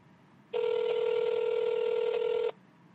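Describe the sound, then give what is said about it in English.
A telephone rings on an unanswered call: one long, steady electronic ring tone lasting about two seconds, loud and alone, beginning and ending abruptly. “He's not going to pick up. Nope. Why does it keep ringing? This is too many rings.”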